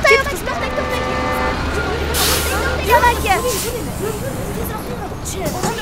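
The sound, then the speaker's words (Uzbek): A bus arrives with a low engine rumble and a burst of air hiss, under people talking and general street bustle. “Avtobus kelyapti.”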